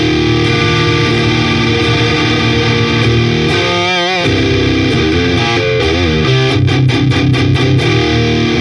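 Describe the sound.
Electric guitar played through a Silverback distortion pedal: loud, saturated sustained chords with wavering notes, followed by a run of rapid, tight muted chugs near the end.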